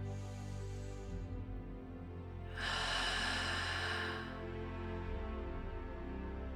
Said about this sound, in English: One last slow deep breath.